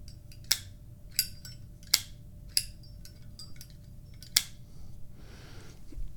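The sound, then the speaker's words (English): Five sharp, bright clicks of tweezers snapping shut, spaced at uneven intervals with a longer pause before the last one. Faint hiss fills the quiet gaps between them. “These are my tweezers. They make a neat sound.”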